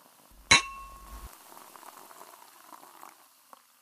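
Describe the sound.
A single bright clink of glasses raised in a toast, ringing briefly with a metallic shimmer, then fading into a faint, soft fizzing of liquid.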